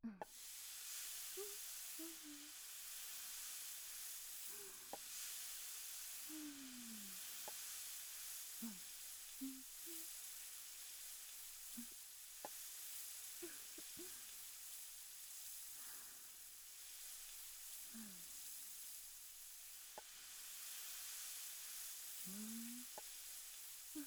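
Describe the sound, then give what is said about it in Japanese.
Green peppers sizzle as they are grilled, giving a continuous bright frying hiss that holds steady for the whole stretch with only slight swells. “これでいっぱい焼きますよ。まずはピーマンから。”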